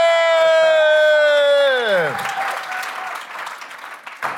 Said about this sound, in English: Come on, y'all. Make some noise for Amy Goodman.